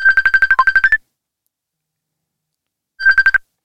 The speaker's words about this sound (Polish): Tak zaczęło pikać, aż nam uciekło